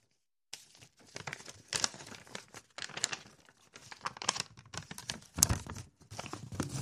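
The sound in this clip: A paper envelope is crumpled and torn with many irregular crackles and rustles. The crinkling comes in dense bursts that keep going for several seconds after a silent start, with no voices.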